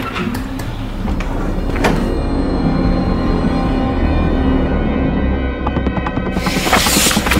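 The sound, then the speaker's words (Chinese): A door is opened into a dead tenant's rented room, set within a dense, continuous layer of sound that swells briefly around the middle and again toward the end. “打开死者的房门”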